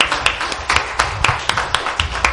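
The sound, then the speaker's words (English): Hand clapping from an audience honoring mothers, a steady, evenly spaced run of sharp claps at roughly four per second, crisp and moderately loud with little else around them. “Let's give them a hand clap of appreciation.”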